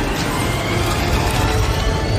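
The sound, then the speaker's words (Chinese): A mech shifts into robot form in a mechanical transformation, a dense, steady churn of whirring gears and ratcheting clicks, loud and continuous throughout. “切换机甲形态并启动光学隐身”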